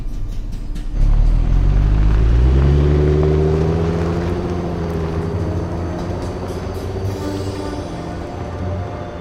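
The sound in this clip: A taxi's car engine rumbles loudly into life and pulls away, its pitch climbing steadily as it accelerates, then settling into a steady drive as the noise eases slightly.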